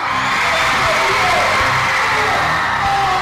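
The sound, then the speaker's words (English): More than 700 middle school students cheering at a pep-rally-style NFL Play 60 kickoff event at Hartman Middle School: loud, continuous whoops, yells and shouting from a large young crowd. “In a Family Feud-style competition, more than 700 students cheered on their heroes and classmates who answered questions about health and nutrition.”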